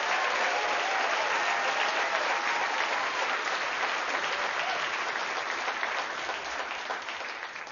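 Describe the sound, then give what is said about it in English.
Sustained audience applause for a live house band, a dense, steady wash of clapping that holds throughout and eases slightly near the end. “Can we just give it up one more time for the amazing band that I'm playing with?”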